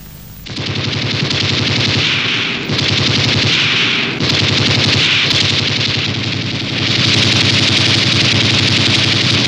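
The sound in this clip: Loud, rapid gunfire rattles in long, sustained bursts, almost continuous, with a few brief dips in level between stretches of firing.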